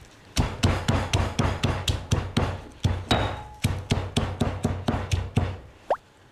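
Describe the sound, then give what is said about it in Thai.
Lemongrass stalks are pounded before boiling in fermented fish broth with galangal and kaffir lime leaves. Many loud, dull thuds fall in a steady, brisk rhythm with no talk. “ใส่ข่าลงไปต้มในน้ำปลาร้าใส่ใบมะกรูดแล้วก็ตะไคร้ค่ะทุบลงไปเลย”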